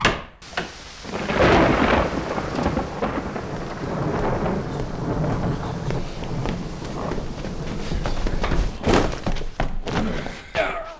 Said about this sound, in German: Ein Unwetter. Schnee, Regen.